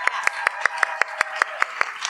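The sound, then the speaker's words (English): Clapping for the educators in the room comes as a brisk run of about eleven crisp, evenly spaced claps. The rhythm is steady and quick, as if from a single pair of hands. “Round of applause for all the educators in the room.”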